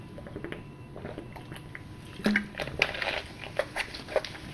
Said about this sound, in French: Donc attendez, je bois juste un peu d'eau.